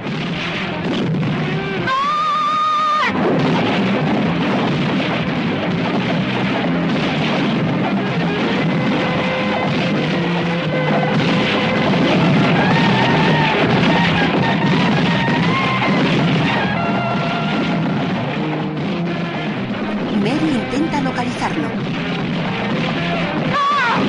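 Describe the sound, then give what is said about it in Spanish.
Gunfire rings out throughout a town in chaos, dense loud shots and heavy booms piling on each other almost without pause for the whole stretch. “El asno consigue escapar. El tiroteo continúa por todo el pueblo que se sume en el caos.”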